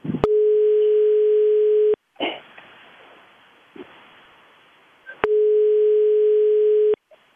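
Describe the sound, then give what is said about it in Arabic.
A telephone line tone sounds while a call is placed: two long, steady, loud tones, each just under two seconds, separated by a pause filled with faint clicks and handling noises. “حنا تنحاولوا مرة أخرى في اتصال مع السي عمر الصوابني.”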